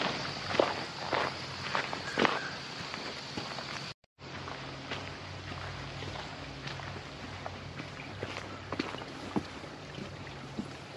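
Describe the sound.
Footsteps of someone walking in the woods, a steady series of crunching steps on the ground that keeps an even walking rhythm throughout.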